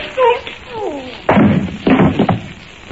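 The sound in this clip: Someone struck with the butt of a gun in a cartoon scene: a short vocal sound, then a few loud, blunt thuds and whacks in quick succession.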